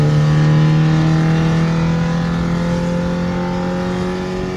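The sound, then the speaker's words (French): A Renault 5 car accelerating hard through the gears, engine holding a loud, steady droning hum with strong tonal harmonics that barely climb during a long pull in third gear at high speed. “La troisième est beaucoup plus longue à monter. C'est normal. On est déjà à 140. Pour une R5, c'est pas mal.”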